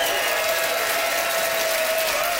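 Audience applause rings out as a vote for a contestant, a continuous, even roar of clapping that stays level throughout with no pauses.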